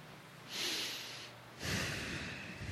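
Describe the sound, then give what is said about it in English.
A big deep breath taken at a church gathering: two long, breathy rushes of air, each lasting about a second, with the second one fuller and slightly louder, and no talk over them. “But first, take a big deep breath.”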